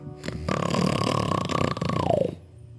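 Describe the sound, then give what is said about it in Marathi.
A lion growls at its cave in a jungle, a low, rough, sustained snarl lasting about two seconds, holding a steady tone before dropping in pitch and cutting off. “सिंहाने त्याला गुरगुरतच विचारले”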